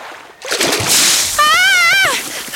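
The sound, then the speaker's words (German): Water splashes loudly near someone fishing for trout, a sustained wet spray and splatter, with a wavering raised voice crying out over it toward the end. “Jemand hat mich nass gespritzt.”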